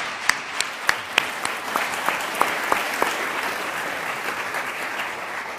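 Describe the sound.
An audience applauds to welcome two speakers on stage at UC Davis, with dense, sustained clapping and a few sharper claps standing out early on.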